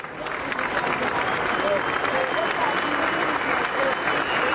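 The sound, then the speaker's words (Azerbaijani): Dense, continuous clapping from tens of thousands of people as Hrant Dink's funeral procession passes the newspaper office where he worked in Turkey, a steady roar of hands holding level throughout. “Dink'in cənazəsi işlədiyi qəzetin redaksiyasının yanından keçiriləndə 10 minlərlə adam əl çalıb.”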